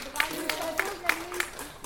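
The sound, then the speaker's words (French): Audience clapping at a diploma presentation, with steady rhythmic claps about three per second running under a speaking voice. “On peut l'applaudir.”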